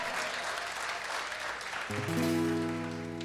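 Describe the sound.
Audience applause welcoming a longtime singer-songwriter, a faint, even patter of clapping that continues as sustained instrumental tones come in partway through.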